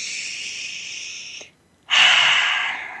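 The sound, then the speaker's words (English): A deep collective breath: a long, steady inhale, a short silent pause, then a strong exhale that slowly fades. “let's take a deep collective breath together.”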